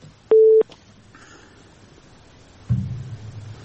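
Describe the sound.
A telephone tone sounds after a caller's line is cut off during a phone-in call: a single short, steady mid-pitched beep, then faint hiss and a later burst of low noise.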